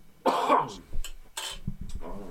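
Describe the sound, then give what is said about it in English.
A man coughs from a throat irritation that has lasted two weeks: a few harsh, abrupt bursts separated by short pauses. “I've had this thing in my throat for the last 2 weeks, whatever, man. So every now and then I'm coughing. So I apologize.”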